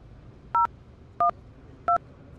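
Three evenly spaced keypad tone beeps sound as a phone number is dialed, each short, two-toned and clear against a quiet background.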